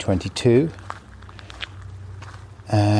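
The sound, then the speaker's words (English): Footsteps crunch along a farm track in the east of England in early June, with several gritty steps between stretches of a man talking. “And I'm going for a walk with my dog friend.”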